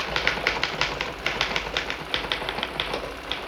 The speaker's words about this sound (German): Eine Schreibmaschine klappert.